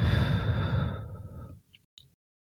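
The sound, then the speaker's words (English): A deep breath out during a guided grounding exercise: a loud, breathy exhale that fades over about a second and a half. A couple of faint, brief mouth sounds follow, with no talk. “And then you're going to take another deep breath in and out.”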